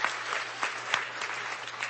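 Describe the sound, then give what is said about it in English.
Audience applause for a guest at a weekend event: dense, sustained clapping from many hands, steady and fairly loud for the whole stretch, with a few sharper claps standing out. “Let's give Jeff another big WCB round of applause.”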